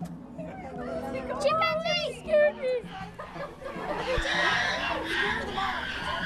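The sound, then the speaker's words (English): Hungry chimpanzees at a zoo in Albuquerque, New Mexico, call and scream in a series of bending, whooping cries that rise and fall in pitch. The calls grow denser and noisier toward the end. “That's the sound of some very hungry chimpanzees.”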